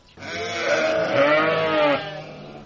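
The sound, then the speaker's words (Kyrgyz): An Edilbay breed sheep bleats in a farmyard, one long, loud, wavering call with a strong harmonic tone that holds steady for nearly two seconds before cutting off, heard alone. “Азыр короосунда Эдилбай породасындагы 300 жакын кой бар.”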